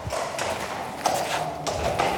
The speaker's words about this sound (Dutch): Maar we hebben een heel koppeltje paarden mee.